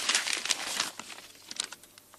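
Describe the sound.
A paper letter being handled and unfolded makes soft crinkling and rustling, busier at first and then thinning into scattered faint crackles.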